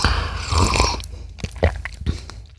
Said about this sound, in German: Ich probiere es mal ganz kurz. Angeblich soll dieses Olivenöl super mit Kaffee harmonieren.